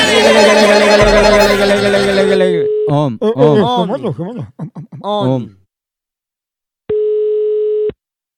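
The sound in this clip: After a stretch of talk, a single ringing tone sounds on a telephone call, a steady, even beep lasting about a second before silence.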